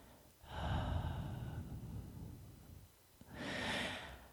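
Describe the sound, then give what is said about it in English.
A long exhaled breath, a steady airy rush lasting about two seconds, followed after a short pause by a second, shorter breath; no one talks. “Now, by thinking and actually exhaling, now listen closely. I'm going to exhale.”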